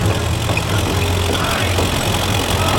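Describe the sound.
A car engine runs with a steady, low, rumbling drone that stays even in level throughout, with no clear change in pace.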